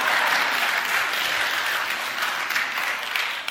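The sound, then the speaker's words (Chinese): Church audience, men in particular, clapping together in dense, steady applause that holds an even, loud level for the whole stretch, with no distinct voices standing out. “弟兄们给他们鼓鼓掌”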